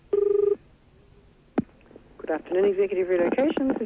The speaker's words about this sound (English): But here we go. Bit of dialing, as always.